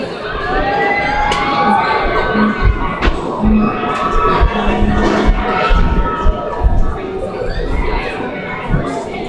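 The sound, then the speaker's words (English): Crowd cheering and shouting for a softball team headed to the state tournament, recorded at a football game. The noise is loud and continuous throughout, with scattered higher shouts rising above the steady roar. “big round of applause for all of our softball. They get ready to go take state.”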